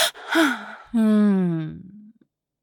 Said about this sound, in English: I jump and gasp.